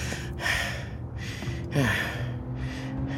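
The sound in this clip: A person pants to catch their breath, with rough, breathy gasps recurring in a slow, uneven rhythm over a steady low background hum.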